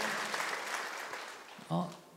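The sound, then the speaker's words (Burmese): Congregation clapping hands in praise during a Sunday church sermon: a dense, steady patter of many hands that runs most of the way, then a voice starts speaking as the clapping fades. “လက်ခုပ်တီးလက်အားပါဖခင်ကိုချီးမွမ်းကြရအောင်အာမင်”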